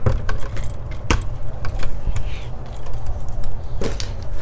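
Cutting off a short wire end while wiring a plug-in receptacle gives a few sharp snipping clicks that stand out over steady light metallic rattling and handling noise.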